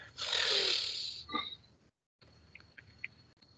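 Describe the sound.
A long, loud, rasping inward snort as nasal mucus is sucked back up through the nose, followed by a short pause and a few faint, brief nasal noises.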